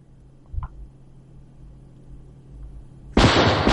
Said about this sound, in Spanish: Seguidamente un cliente se levanta y se dispone a disparar a César.